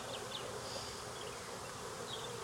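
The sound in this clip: Steady, faint buzzing of a marked queen bee as she is coaxed down into her hive, which has a queen excluder fitted. The drone holds even and continuous with no breaks.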